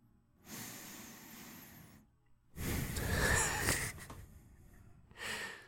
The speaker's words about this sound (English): You guys reading out there on the internet couldn't see it, but as he took that deep breath there, his neck inflated like a bullfrog.